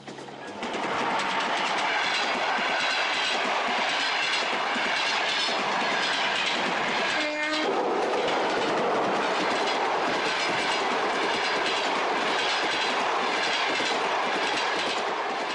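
A train of railway wagons rolls past on the rails in a continuous loud rumble with rhythmic clickety-clack, and a brief tonal screech cuts through near the middle.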